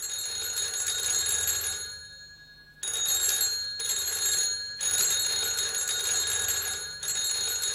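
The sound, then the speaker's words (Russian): A telephone bell rings in a Moscow apartment at night: loud, bright, steady ringing in repeated bursts with brief silent pauses between them, and no voices. “Это звонит телефон в московской квартире Чуренковых.”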